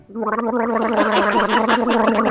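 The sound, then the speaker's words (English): Someone gargles minty mouthwash, a loud voiced gurgle that bubbles on one low, steady pitch for about two seconds. “I meant Hillary's Clintoris, the minty fresh mouthwash. If you gargle every day, you'll sing a happy chorus.”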